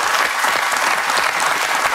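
Audience applause: dense, steady clapping from many hands fills the whole moment at an even, loud level without a break.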